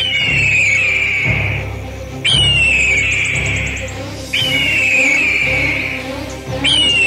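Eagle cries as the bird flies in: four loud, drawn-out high calls, each opening with a sharp downward slide and then holding a steady piercing tone, over a low rumbling bed.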